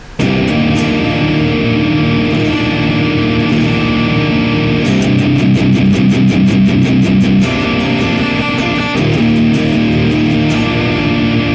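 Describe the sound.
Distorted electric guitar tone from a Bossi R200 amp modelled in the Neural DSP Archetype plugin, with loud, thick sustained chords and a stretch of fast, tight chugging in the middle.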